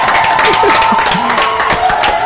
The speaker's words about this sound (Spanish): Así que chicos, le damos un aplauso y nos vamos escuchando sus temitas. Dale. Pero aplaudan ustedes también, gato.